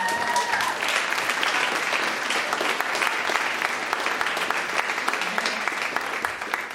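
Audience applause welcoming a guest onto a live stage. The clapping is brisk, even and sustained for the whole stretch.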